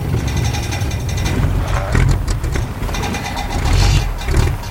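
A smoking car engine runs as the car pulls over and stops, producing a steady, broad mid-to-low rumble with road noise that stays loud throughout.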